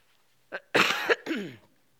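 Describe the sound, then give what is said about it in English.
A short bout of coughing that interrupts a spoken prayer: a small cough, then a harsh, loud burst, then a final rasping cough, each clear and unaccompanied by talk. “Excuse me, I'm going to cough here.”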